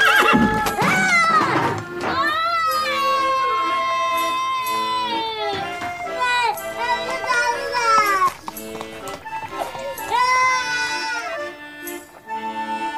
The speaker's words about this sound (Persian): اسب از کنارش رد میشه.